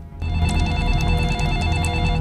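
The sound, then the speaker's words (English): A telephone rings after a number is dialled on a mobile phone. The steady electronic ringing tone starts abruptly and holds at an even level throughout. “She dials another number on her mobile.”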